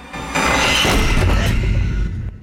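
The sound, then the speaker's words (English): A heavy attic door slams shut with an abrupt, booming onset. A loud, dense rumble rings on for about two seconds before cutting off sharply. “The upper attic door slams shut behind her.”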